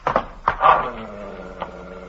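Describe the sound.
A dog growls and barks at an intruder who has hopped a fence into a yard: a few short, harsh bursts early on, then a lower, rougher rumble carrying on more faintly, with one more brief bark near the end.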